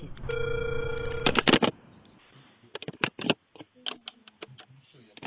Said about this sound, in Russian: Абонент еще не взял трубку. Пока продолжается дозвон